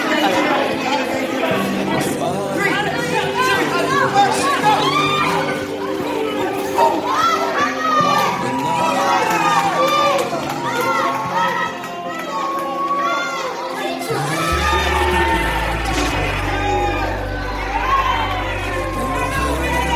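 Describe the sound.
A crowd shouts and cheers at a church tug of war match between a worship team and an under-18 team. Excited voices and children's shouts blend continuously over a low steady hum.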